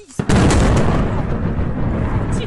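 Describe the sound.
Explosions at the occupied harbour of Feodosia: after a brief, quieter lead-in, a sudden blast breaks into a loud, sustained, roaring rumble that continues to the end.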